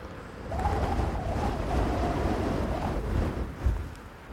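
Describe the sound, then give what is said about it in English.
Wind buffeting a microphone outdoors beside a loch in an easterly gale with drifting snow: a continuous low, roaring rumble of steady loudness, with a brief gust-like swell near the end and no talk. “I don't know how much of the wind my microphone is picking up.”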